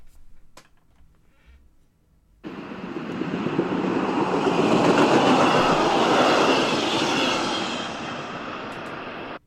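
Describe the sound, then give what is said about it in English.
A train passing by: after a couple of quiet seconds, a loud rushing, rumbling roar starts abruptly, holds steady and slowly eases as it continues. “That was a train passing by”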